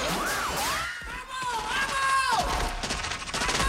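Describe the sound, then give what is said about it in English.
Gunfire breaks out as people are shot during a street attack, with scattered sharp shots and bursts over a dense, continuous din of shouting voices. “A woman gets shot, then a man and a couple of pressmen on top of a van.”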